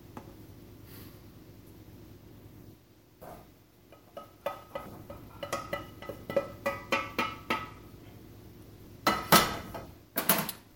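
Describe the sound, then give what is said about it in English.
A cooking pan is tipped to drain sausage fat into a can, making a quick run of light metallic clinks and taps against the can's rim, followed by a louder burst of scraping and clattering. “Let's turn that off. Drain our fat into a can for use or disposal later.”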